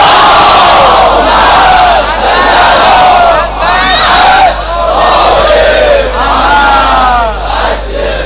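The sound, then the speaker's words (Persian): A crowd chants salawat in unison at a religious gathering, loud massed voices rising and falling in repeated waves throughout. “صلواتتون تأیید عرایض بنده باشه از اون صلوات های محمدی که عطا کنه.”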